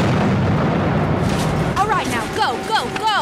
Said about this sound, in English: We don't need those troops coming through the tunnel. Everybody, fall back. She's about to blow. All right. Fire in the hole.